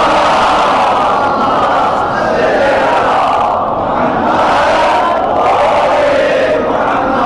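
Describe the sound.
A crowd at a religious gathering shouts in unison in response to the Naara-e-Haideri call, a loud, roaring chant of many voices rising and falling in waves.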